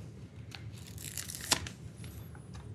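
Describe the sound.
Stickers peeled from a sheet while building a Lego set: faint, dry tearing and crinkling rips with one sharper snap midway, heard alone.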